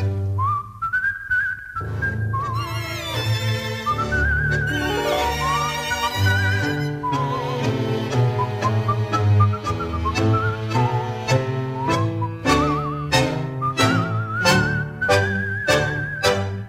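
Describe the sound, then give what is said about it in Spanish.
A person whistles a tango melody: a clear, high tune of sustained and gliding notes that runs steadily through the whole passage over a fuller, lower musical backing. “cruza el cielo el aullido de algún perro vagabundo, y un reo meditabundo va silbando esta canción.”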